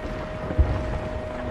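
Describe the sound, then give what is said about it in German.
Wind and water ambience around a ship lying at anchor: a steady rushing wind bed with a single soft low thump near the middle. “Das Schiff von Ehret liegt ganz in der Nähe vor Anker.”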